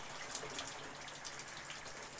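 Shower water running: a steady, even hiss of spraying water, faint and unbroken throughout, with no voices.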